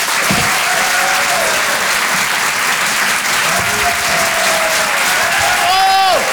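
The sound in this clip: A comedy club audience claps and cheers for a comedian walking on, sustained loud applause with occasional tonal shouts rising above it, strongest right at the end.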